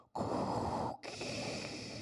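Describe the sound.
A voice imitates a villain's heavy, menacing mechanical breathing: two long, harsh, rasping breaths with a short pause between them, the first noticeably louder and rougher than the second.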